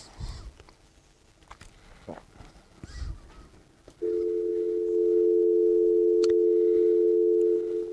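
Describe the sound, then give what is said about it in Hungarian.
A telephone dial tone while a call is placed: a few faint handling clicks and taps come first, then a steady, loud, unbroken tone starts partway through and holds to the end. “És akkor én most hívom őt.”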